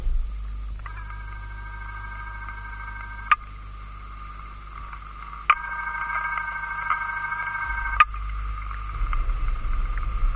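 A telephone ringing unanswered on a call placed through an operator: two long trilling ring tones separated by a pause, over a steady low hum on the line.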